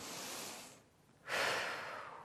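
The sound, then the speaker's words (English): One full cycle of breath held during a yoga pose: a soft airy breath, a short quiet pause, then a fuller, louder rush of air that tapers slowly, faint and alone with no talk. “So stay here for one full cycle of breath.”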